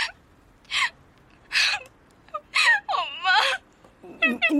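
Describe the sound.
A person crying on a phone call, with gasping sobs and wavering, whimpering vocal sounds in several uneven bursts.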